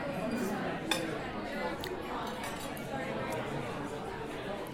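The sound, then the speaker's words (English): Cutlery clinks against plates during a meal of glazed lamb chops, with a few light metallic taps over a steady murmur of chatter. “Now I'm diving into the lamb chops, these glazed lamb chops, and we're going to try it with the signature Cabernet Shiraz mix from 2012.”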